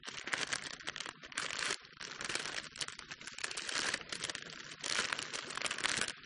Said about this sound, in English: Okay, do you want to unwrap that?